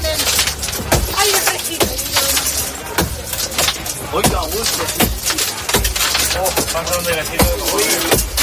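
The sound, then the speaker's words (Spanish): Passengers break the windows of a stalled train carriage, left without light or air conditioning in 40-degree heat, with many sharp cracking and smashing impacts in an irregular series, loud, as people talk over them. “varios pasajeros se ven obligados a romper las ventanillas del vagón. Este es el momento.”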